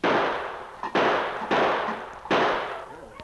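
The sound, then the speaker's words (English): Revolver shots from a six-shooter fired at a tin can during target practice in the snow: four loud, sharp bangs at uneven intervals, each followed by a long fading tail, with a fainter pop just before the second. “he amused himself by taking target practice with his six-shooter on a tin can which he had set up in the snow about 50 yards away”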